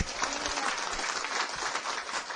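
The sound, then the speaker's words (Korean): Applause from an audience at a church sermon, a dense, steady clatter of many hands clapping without a break for a couple of seconds. “박수 한번 치고.”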